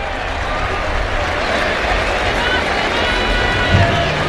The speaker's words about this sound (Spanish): Va a haber un brindis al maestro Enrique Ponce. Buen detalle. Escuchen, amigos, la reacción del público.